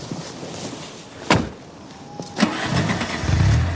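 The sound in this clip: A car engine starts as someone gets into the car: a couple of short bursts of sound, then a steady low engine rumble that swells toward the end, with no talk over it.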